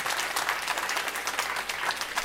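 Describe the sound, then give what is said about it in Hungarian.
An audience applauds a participant who answered a question during a science demonstration. The clapping is moderate and steady, with a slightly pulsing texture and no talk over it. “jó van, tapsoljuk meg.”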